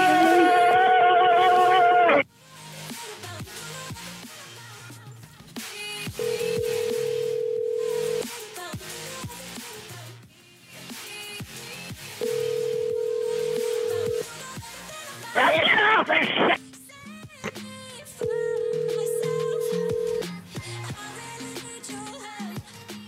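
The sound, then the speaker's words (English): Four long ringback tones from an outgoing telephone call that goes unanswered to voicemail. They are steady, low, evenly spaced hums of about two seconds each over a busy background. “I'll call him again. I'll call him one more time.”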